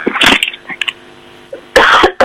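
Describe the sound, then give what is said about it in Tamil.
Harsh coughing from a person who has come in with a cough: a few loud, rough bursts, first a quick cluster and then, after a quiet gap, one longer hacking fit. “என்ன இருமலோட வாரீங்கள்? காய்ச்சலா?”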